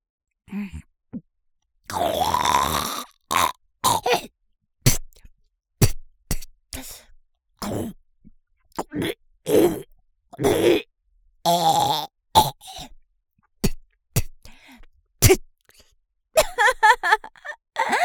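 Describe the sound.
Hawking up thick phlegm before spitting: many short, throaty bursts of clearing, gurgling and grunting, separated by brief silences.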